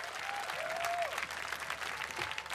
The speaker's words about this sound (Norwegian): Varm applaus.